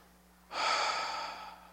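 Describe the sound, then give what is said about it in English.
Someone draws a deep breath: a single soft rush of breathy noise that swells quickly, lasts about a second and fades away. It is fairly faint over a low, steady hum. “Let's everybody take a real deep breath,”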